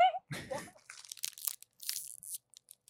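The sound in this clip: Crinkling, tearing plastic as a bag of cheese puff snacks is pulled open, with a burst of rustling and a few sharp crackles after a brief voice at the start.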